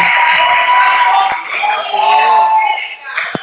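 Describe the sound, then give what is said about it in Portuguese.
People shout in an office, heard over a phone line as a continuous loud blur of raised voices. “Desculpa, é que aqui no escritório estão gritando aqui.”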